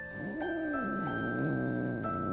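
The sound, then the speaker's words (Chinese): A small, plump, fierce cat yowls and growls while a thorn is pulled from its paw with tweezers, giving two drawn-out cries that rise and fall over a steady low hum. “原来那只小猫脚掌踩了个刺，王太医正给他拔刺呢。那小胖猫还挺凶悍”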